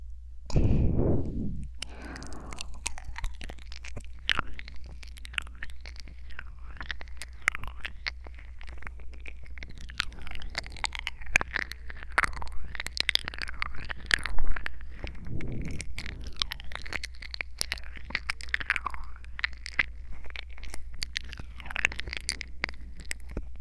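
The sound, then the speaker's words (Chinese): Wet chewing and nibbling mouth sounds in a roleplay of nibbling on little ears, close and continuous, full of small clicks, smacks and soft crunches for over twenty seconds without speech. “你的小耳朵可真好吃啊。”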